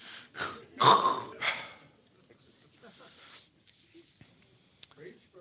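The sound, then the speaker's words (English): A preacher takes audible breaths during a sermon, a few breathy bursts in the first couple of seconds, followed by near silence with faint small sounds. “All right. I'm going to take a breath.”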